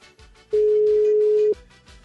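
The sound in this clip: A telephone ringback tone on an unanswered call: one steady, loud, mid-pitched tone lasting about a second, with faint low background hum before and after it.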